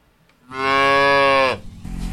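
A dairy cow on a small farm in East Bernstadt, one of a herd of cows weighing 1,200 to 1,600 pounds, lets out a single loud, long, harmonic moo that holds steady and then drops off, followed by low farmyard noise.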